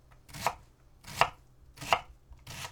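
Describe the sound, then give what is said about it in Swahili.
Knife chopping a vegetable into 5 mm cubes on a board: four faint, evenly spaced chops, each a short sharp tap, with no voices. “Kigeuze ili kikuangalie kiupande na uanze pembeni kukikatakata huku kikiachana kwa nafasi ya milimita 5 ili kutengeneza vipande vya mche mraba ulio na milimita 5.”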